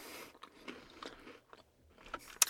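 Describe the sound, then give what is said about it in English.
Crunchy biting and chewing of a Kit Kat Fruity Cereal candy bar: several brittle crunches and softer mastication sounds in an uneven rhythm, ending with one sharp, bright crunch. “So this first one is Kit Kat Fruity Cereal. Here we go.”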